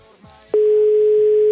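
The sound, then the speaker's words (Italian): A mobile phone call's line tone: one steady, low, unbroken beep lasting about a second, sounding loud and alone after a short stretch of faint voice. “Il telefonino, voglio il telefonino. Eccolo, risponde il telefonino.”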